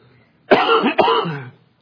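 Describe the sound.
Two harsh, rasping coughs from someone who has had something go down the wrong pipe, the bursts coming close together and fairly loud against near silence.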